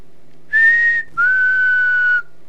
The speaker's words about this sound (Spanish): Se escuchan algunos silbidos.